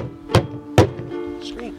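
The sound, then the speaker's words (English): Two heavy thuds strike a door, staged as zombies breaking down a radio station door. The blows come a short beat apart, and a brief voice-like sound follows. “Oh! They're coming! I can hear the zombies breaking down our station door.”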